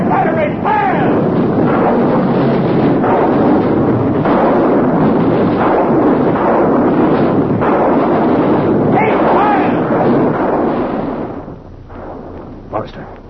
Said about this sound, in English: Artillery batteries, fire!